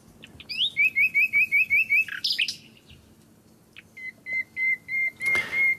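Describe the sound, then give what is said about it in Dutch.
Birds singing among reeds: a quick run of bright, clear whistled chirps, a short pause, then a second run of similar high, evenly spaced notes. No voices are heard. “Lekker genieten van het riet en de vogels die hier zitten.”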